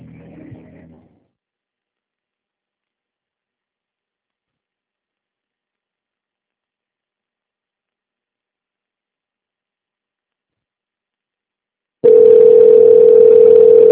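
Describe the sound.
A single steady telephone tone sounds while a call waits to be answered. It is mid-pitched and unbroken, starting abruptly after a long silence and running loud to the end.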